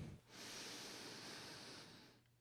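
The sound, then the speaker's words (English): A single deep breath drawn in as a breathing exercise: a steady, airy inhalation of about two seconds, broad and hissing, heard alone without any talk. “All right, and then take a deep breath in”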